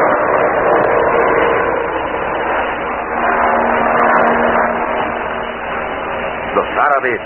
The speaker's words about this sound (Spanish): Acto seguido toma su lugar frente al timón del avión y levantan el vuelo en medio de la oscuridad de la noche.